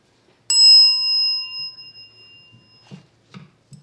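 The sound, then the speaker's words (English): A small hand bell, used at a panel discussion to signal that speaking time is up, is struck once, giving a bright, clear ding whose high ringing tone fades over about two seconds, followed by a few faint soft sounds. “A bell will be rung. This is the bell, and it sounds like this.”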